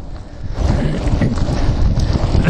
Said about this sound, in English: I knew I was always a good chance to be riding into the wind, and so I am, because the winds tend to be southerlies this time of the year.